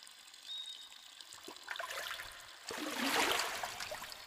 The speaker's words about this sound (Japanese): ちょっとお湯から上がってもらえますか。